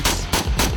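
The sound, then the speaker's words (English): A Sig Sauer M8 rifle, a US Army weapon, fires three sharp, loud shots in quick, evenly spaced succession at Sig Sauer's New Hampshire headquarters. Each shot has a hard crack and a short rumbling tail. “You're going to be the first journalist to ever fire the M8.”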